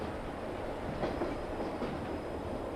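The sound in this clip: A sleeper train carriage rattles along the rails with a dense, continuous rumble and a clattering of wheels and body. The noise stays steady and fairly quiet throughout, with no talking.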